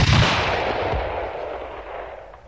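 One loud rifle shot fired at a flock of starlings. A sharp, booming blast is followed by a long, rumbling tail that slowly fades away.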